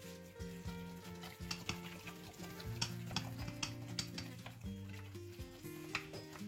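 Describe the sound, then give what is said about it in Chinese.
Stirring of a beef meatball filling seasoned with Sichuan pepper powder, soy sauce, sesame oil, salt, starch slurry and water: quiet, repeated ticking and scraping strokes in an uneven rhythm, with a melody playing softly underneath. “酱油、香油、盐这些这个东西，然后刚刚加了一些水淀粉，据说给它让它变粘稠，包括里头可能要加一些水嘛，让它变得稍微的稀一点，口感会更好。然后我们需要搅拌。”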